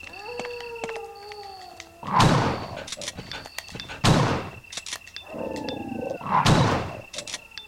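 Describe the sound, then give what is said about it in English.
Three heavy, booming shotgun blasts fired at dogs in a horror video game, spaced about two seconds apart over a bed of sustained tonal game music and ambience. “Oh, there's a dog out here. I'm going to shotgun it.”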